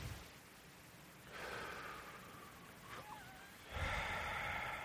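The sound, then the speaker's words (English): A big, deep breath taken by a person: two long, airy, hissing breath sounds, the second louder and fuller than the first, with no speech between them. “Just take a big, deep breath.”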